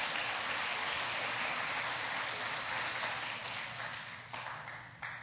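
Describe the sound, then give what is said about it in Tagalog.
A church audience applauds during a Filipino worship service, the clapping a dense, continuous wash of many hands that holds steady and thins slightly near the end. “Pwede bang palakpakan natin ng Panginoon?”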